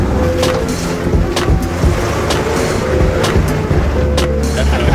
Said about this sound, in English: They apparently fixed the drive shaft. I don't exactly know how. Maybe they just had a spare part, but we're rolling.